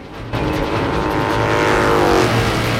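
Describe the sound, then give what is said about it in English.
A motorbike engine revs and accelerates hard on sand: a loud, continuous roar whose pitch climbs as the throttle opens. “works the throttle and is soon accelerating at a tremendous rate.”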